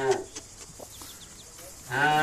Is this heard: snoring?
no